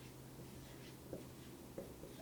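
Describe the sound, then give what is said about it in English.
Marker strokes on a board as a car battery is drawn: soft, scratchy rubbing with two slightly louder strokes, over a steady low hum. “That looks like a car battery, because that's what I'm trying to draw.”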